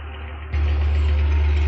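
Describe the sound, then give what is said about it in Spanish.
A bus engine rumbles as the bus pulls away. The deep, steady drone jumps louder about a third of the way in and then holds at that level, with no voices. “Amaya mira a Chema desde la parte trasera del vehículo mientras el autobús se aleja.”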